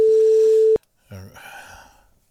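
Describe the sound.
A single long ringback tone sounds on an outgoing phone call, a steady mid-pitched hum that cuts off sharply. After a short silence, a person starts talking.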